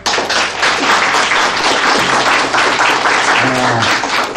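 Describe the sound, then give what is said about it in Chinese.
Sustained applause for carrier aviators being hailed as heroes: dense, continuous clapping at an even, loud level from start to finish. “为你们鼓掌。”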